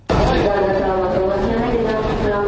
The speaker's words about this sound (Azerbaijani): Bakı avtovağzalında ağız deyəni qulaq eşitmir. Səsküy adamı avtovağzalın girişində haqlayır.